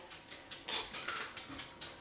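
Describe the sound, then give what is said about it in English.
A dog prances around, making soft, faint scuffs and light jingling taps in a few brief bursts with no talk. “I apologize about the dog prancing around.”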